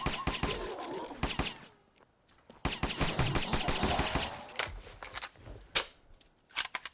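Gunfire from a video game in rapid bursts: many sharp, loud shots fired in quick clusters, separated by short pauses, with no talking over them.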